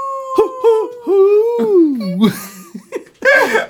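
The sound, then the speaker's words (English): Owl-like hoots, gliding tonal calls that rise and fall in several voiced bursts, apparently a voice imitating an owl, with breathy, laugh-like sounds toward the end. “I like the owl just pops in.”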